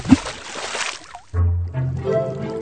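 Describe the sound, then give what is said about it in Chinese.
A splash of diving into water: a burst of sloshing, rushing noise lasting about a second, then a cut to quieter, softer tonal sounds. “那小朋友准备好了吗？我们要潜水咯，要请你憋气，一二三。”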